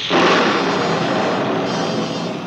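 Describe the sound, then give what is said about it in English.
A thunderbolt sound effect in a radio drama adaptation of Snow White, summoned as part of a wicked spell, bursts in loudly and rolls on as a sustained, roaring rumble for about two seconds. “Send a blast of wind to fan my hate. A thunderbolt to mix it with.”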